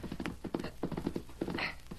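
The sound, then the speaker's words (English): A high-spirited colt's hoofbeats sound as it is ridden, a steady, rapid clip-clop of thudding steps throughout. “The day you ride the colt successfully, you can select a name for him. Oh, golly. I gotta ride him now. Steady, boy. Steady now. Steady.”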